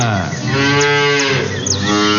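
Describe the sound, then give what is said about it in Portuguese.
A cow lows loudly in one long, sustained moo at morning milking time on a farm, deep and resonant throughout. “Tá na hora do leite. Vamos dar bom dia pra Mimosinha. Mimosinha, bom dia.”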